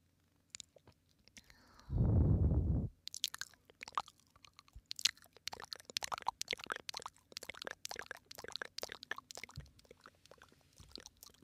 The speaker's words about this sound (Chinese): 口腔音，轻一点舔耳吧。